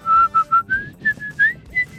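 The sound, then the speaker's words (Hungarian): A person whistles a run of about eight short, clear notes, not aimed straight into the microphone. The notes are fairly loud and come in a quick, uneven rhythm, with the pitch stepping up slightly after the first few. “Mondjuk könnyebb, ha nem direkt a mikrofonba fütyülsz”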